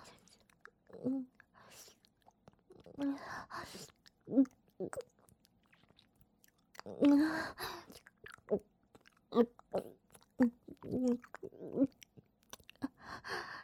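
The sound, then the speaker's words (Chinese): Someone chews food with soft, moist mouth sounds. The smacks and crunches come in irregular clusters with short pauses between them, and the chewing stays fairly quiet throughout. “叫你不听话，被我吃到嘴巴里了吧？”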